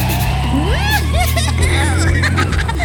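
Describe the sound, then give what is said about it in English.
A red convertible car driving through city streets, with a steady low engine drone and shifting swoops of sound, and voices mixed in throughout. “Baby with a mustache is driving a red hot convertible.”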